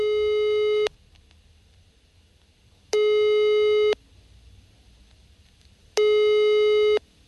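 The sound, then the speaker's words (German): A telephone ringback tone plays while calling a politician: three steady, loud tones of about a second each, separated by longer silent gaps. “Aber wie es sich anhört, wenn man bei so einer wichtigen Politikerin anruft, das hört ihr jetzt.”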